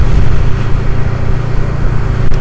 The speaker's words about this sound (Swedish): Så nu ska jag svänga av här mot Los Hamra.